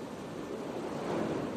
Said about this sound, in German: Entspannen und regenerieren Sie am Meer. Das Meer und der Strand lösen in uns Gedanken, Imagination wie Freude, Freiheit, Unbeschwertheit sowie Reinheit und Frische aus.